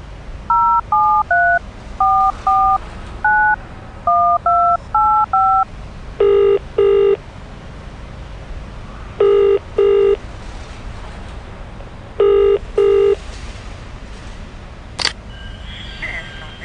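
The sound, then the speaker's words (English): Touch-tone keypad beeps as a number is dialed on a payphone: a quick run of many short tones at shifting pitches, then a few paired ringing tones repeating at even intervals. “In a world where the superpowered take the monorail from place to place, heroes use payphones. You're jolted from this incongruity, just in time to see him dial.”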